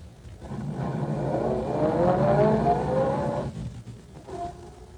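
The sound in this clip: A car pulls away after dropping off a passenger, its engine hum swelling into a steady drone that holds for a few seconds, then fades off, leaving a faint tone.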